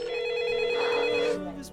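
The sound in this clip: A telephone ring tone sounds on a radio call-in line: one steady, sustained mid-pitched tone that holds for just over a second and then cuts off, with a faint background bed behind it.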